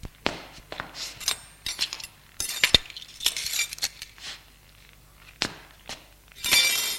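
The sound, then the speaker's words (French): Pieces of a broken cup being gathered up and set down on a table, with many short, sharp ceramic clinks and clicks at irregular intervals, some clustered together and some isolated. “se lève et ramasse les débris de la tasse pour les mettre sur la table.”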